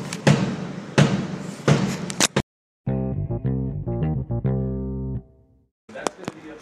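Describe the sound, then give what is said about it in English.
Heartbeat-like thumps blasted through an amplifier: a few heavy, distorted low booms at a steady pulse, then a buzzy, stuttering electronic tone, a short silence and a few sharp clicks. “he hooks up an amplifier to his heart, so every time he has a heartbeat, it blasts out there to the populace, just like this.”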